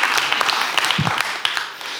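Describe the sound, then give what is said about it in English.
An audience claps for a speaker in a dense, fairly even patter of many hands with a few sharper individual claps, then eases off slightly toward the end. “You can clap for that. That's good. I don't mind.”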